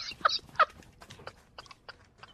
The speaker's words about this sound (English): well that sounded pretty scary because a magpie is not a small bird to mess with.